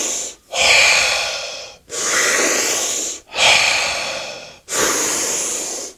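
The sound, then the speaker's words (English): Deep breaths are drawn through the mouth during a guided breathing exercise. Four long, loud, airy rushes each last over a second and are separated by short silent gaps, with no talking. “deep breath in through your mouth. Letting go. Keeping that breath going.”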